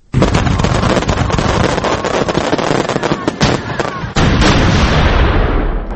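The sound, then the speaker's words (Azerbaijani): Fireworks burst over a July evening celebration in Baku: a dense, loud, continuous barrage of cracks, pops and booms that keeps going throughout, with a brief dip before the volley resumes at full strength. “İyul axşamı Bakıda atəşfəşanlıqdır.”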